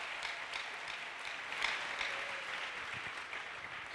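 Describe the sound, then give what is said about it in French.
Applause from a church audience in Goma, a steady, dense wash of clapping held at a fairly low level for the whole four seconds. “Est-ce qu'on peut acclamer pour nous-mêmes? Tunaweza kujishangilia.”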